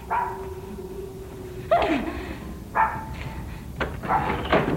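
A dog barks a few times in short, sharp bursts with quiet gaps between them, standing out against a low, steady background murmur.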